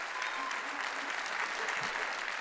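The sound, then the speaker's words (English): A church audience applauding its pastor, an even, continuous wash of many hands clapping with no pauses, fairly soft. “Honor your pastor. Let's give him a round of applause.”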